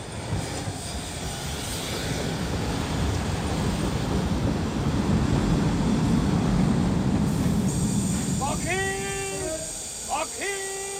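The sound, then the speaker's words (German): A train arrives: broad rumbling swells, peaks midway, then eases off, and high, stacked squealing tones break in near the end. “Na, da ist er ja, der Zug.”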